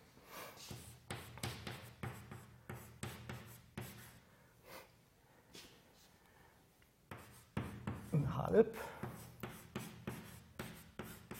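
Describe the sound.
Writing on a board during a physics lecture: faint scratchy strokes and taps come in short irregular bursts, pause for a few seconds midway, then resume with firmer, denser scribbling.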